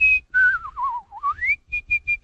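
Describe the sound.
Artistic whistling of a song melody: a clear, pure whistled tone that starts high, slides downward through wavering notes, climbs back up, then ends with a few short, crisp high notes.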